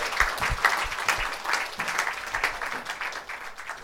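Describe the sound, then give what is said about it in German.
An audience applauding during a church service: sustained, dense clapping from many hands with a rough, busy texture, staying fairly steady and easing slightly toward the end. “Let's give Jesus praise. Hallelujah. Einen Applaus geben.”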